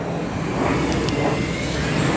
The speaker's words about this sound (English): Thank you, plane, for interrupting another one of my audios.